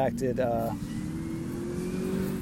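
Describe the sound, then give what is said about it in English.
A car speeds past on Shoreline Drive, its engine and road noise forming a steady rushing drone that follows a brief stretch of talk. “Sorry, I was watching a car go zoom, zoom down the Shoreline Drive there.”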